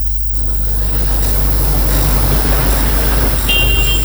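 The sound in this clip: Jammed street traffic, a steady loud rumble of idling and crawling vehicle engines, forming a continuous low, dense drone that never lets up, with no clear horns or voices.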